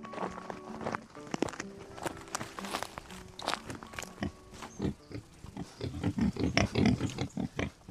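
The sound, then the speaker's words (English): Farmed wild boar on a farm on the Kilkenny-Waterford border in Ireland, grunting and snuffling many times in irregular bursts, mixed with trampling footsteps and rustling. “Micheál Hanrahan farms boar near Lister Lynn on the Kilkenny-Waterford border, and he let me get up close and personal with his stock.”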